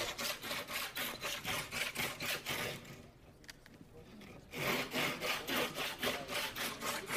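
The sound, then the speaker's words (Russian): A hand saw cuts through wood in quick, regular back-and-forth rasping strokes. The sawing stops briefly in the middle, then resumes at the same brisk rhythm. “Хорошо. Пилите пока, вы не останавливайтесь. Да, давайте без остановок.”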